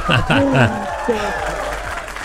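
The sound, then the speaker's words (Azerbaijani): Applause rings out in honour of a singer's birthday, with steady clapping running beneath a voice that is heard at the start. “Bu alqışlar da məhz sizin şərəfinizə səsləndir.”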